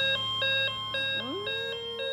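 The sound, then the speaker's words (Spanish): An electronic doorbell-style chime beeps in a fast, even pulse of short, high tones, with a sliding tone that swoops in partway through and then holds beneath the beeps. “¿Un timbre? Sí, está bien.”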